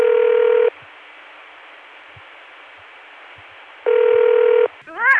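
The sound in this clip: Ringback tones sound as a call passes through the ContelNet network to a Dimension PBX exchange. Two steady buzzing rings, each under a second long, are separated by about three seconds of quiet line hiss, and a short warbling sound follows.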